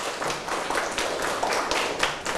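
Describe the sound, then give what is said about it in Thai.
Classmates in a mathematics lesson clap for a student's correct answer, a brisk burst of many hands clapping in quick, uneven rhythm at moderate loudness that continues throughout. “ปรบมือให้เพื่อนหน่อยครับถูกต้องครับ”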